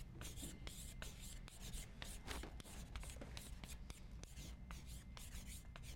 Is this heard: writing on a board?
yes